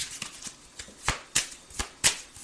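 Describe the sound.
Tarot cards being shuffled make a quick series of crisp riffling bursts, irregular in spacing and strength, with the last few louder and sharper.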